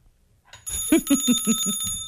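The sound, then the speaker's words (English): A bell rings out in a call-in trivia game: a bright metallic bell, struck in a quick run of about six dings that blend into a ringing sustain. “How about this bell?”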